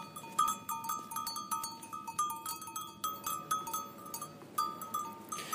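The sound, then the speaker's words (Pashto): Clanking livestock bells ring from a flock of sheep and goats grazing on green spring steppe near Ghazni. Many overlapping metallic clinks ring in an uneven, continuous rhythm, with an occasional faint bleat. “مساکلم د دامن په دشتو کې د خپل پسونو په سرولو باندې لګیا دی”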